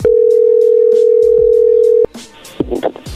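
Steady telephone dial tone while a dropped call is redialed, held loud and unbroken for about two seconds, then cut off and followed by a few brief clicks and scraping noises.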